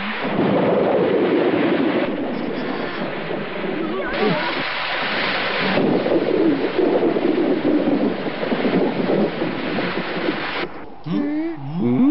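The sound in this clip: Rain falls steadily with a broad, rushing hiss and a low rumbling roar, and people talk over it almost throughout.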